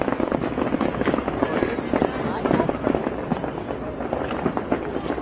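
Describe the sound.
Fireworks bursting in the sky at an American holiday celebration, many loud crackling blasts and pops in a dense, continuous barrage with no pauses.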